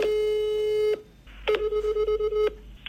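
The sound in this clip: Ringing-out tone of an outgoing telephone call, a steady mid-pitched tone lasting about a second, then a short gap and a second tone broken into quick pulses, with no voices.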